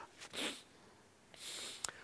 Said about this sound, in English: Excuse me for my sniffings, but it's brought on by this wonderful fresh air that's coming from the side. It's just the end of a cold, I assure you. So if I keep sniffing